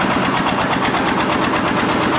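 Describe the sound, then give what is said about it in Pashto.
Steady machine engine noise with a rapid, rhythmic pulsing throughout, from a machine lifting bricks on a cold-weather building site where a four-storey commercial market is under construction. “دلته کارګر په سړې هوا کې په کار کولو لګیا دي، ځینې بیا د ماشین په وسیله لوړ پورته خښتې پورته کوي.”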